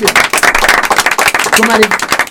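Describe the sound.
Studio audience applause on an Italian television show, loud, dense clapping with sharp individual claps standing out and a voice briefly audible in the mix.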